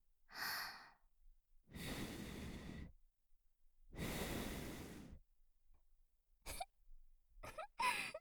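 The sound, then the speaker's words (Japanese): Soft breathy blowing puffs directed at an erect nipple on the left side, whispered like fuu fuu: two long airy blows, a shorter one before them and a few quick breathy puffs at the end, quiet and unvoiced. “ふうふう息吹きかけてあげる。左から”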